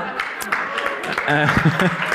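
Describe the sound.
Scattered audience clapping during a talk, a few sparse, uneven claps rather than full applause, heard under voices that speak throughout.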